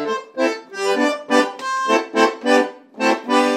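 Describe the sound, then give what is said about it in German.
Concertina playing: reedy, bright chords pressed out in a string of short, pulsing bursts with a lively, bouncing rhythm, the bellows swells rising and falling between notes. “Eine Konzertina hört sich so an.”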